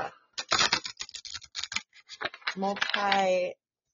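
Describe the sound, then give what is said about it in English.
Playing cards shuffled by hand, a run of quick, irregular crisp clicks and snaps in short bursts, followed by a brief voiced sound at the end. “I'm shuffling cards”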